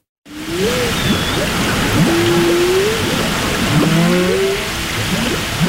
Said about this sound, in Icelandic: Kór frá bænum Margate í Kent á Englandi notar hvalahljóð frá kvölum úr Bakkaflóa í nýju lagi sínu